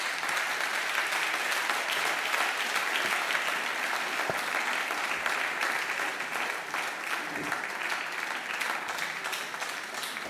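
An audience applauds to welcome three musicians onto a stage, a dense, steady clapping that holds at an even level throughout and eases off slightly near the end.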